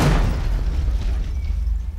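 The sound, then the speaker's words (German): An explosion sound effect: a loud, broad boom at the very start, then a dense low rumble that slowly thins out across the remaining two seconds. “Du weißt, wie sie gestorben ist? Explodiert.”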